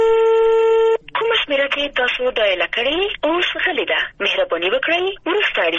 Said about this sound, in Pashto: ورسته مو بیا هم اړیکه ټینګه کړه خو بریالي نسو ځکه په غزنی کې ډیری کسان دلته د ټلیفوني شبکو له خراب حالت څخه سر ټکوي.